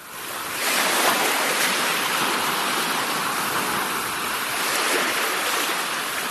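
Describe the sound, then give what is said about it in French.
Sea waves breaking, a blue wave on the shore: a broad, hissing rush of surf swells up after a brief quieter start and holds as a loud, steady wash for several seconds. “Et le premier son, c'est le bruit d'une vague, une vague bleue.”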